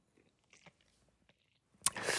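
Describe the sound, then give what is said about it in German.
A sip of jasmine tea, heard as a short, noisy slurp that bursts in loudly near the end after a few faint mouth clicks and soft rustles. “Habe gerade einen Schluck von meinem Jasmin-Tee getrunken.”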